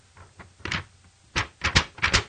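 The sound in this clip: Paper rustles in a few short, crisp bursts of crackling, quiet at first and then louder and closer together.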